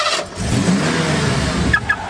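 A Ford Bronco Big Bend engine revs in a throaty, mid-pitched roar. It holds steady and loud for about two seconds with no voices.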